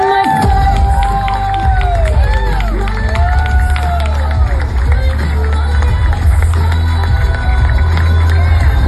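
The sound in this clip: A crowd cheers at a political rally to welcome a candidate for governor, a loud, unbroken roar with whoops and shouts rising out of it.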